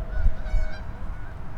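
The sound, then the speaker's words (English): Geese over an iced-over pond honk as they circle and come in to land. A few loud, nasal honks sound over a steady background hiss. “A lot of these geese are really confused. This guy's coming in. These guys are on final.”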